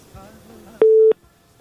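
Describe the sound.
Telephone busy signal after a call connection dropped: a voice talks quietly, then one loud, steady mid-pitched beep sounds briefly and cuts off sharply, leaving faint background.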